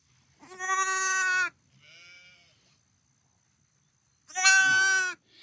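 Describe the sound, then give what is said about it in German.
An injured lamb, attacked and left missing an eye, bleats in two loud, drawn-out quavering cries separated by a long pause, with a fainter, shorter call between them. “An dieser Stelle soll ein weiteres Lamm angegriffen worden sein. Es lebt noch, ihm fehlt ein Auge.”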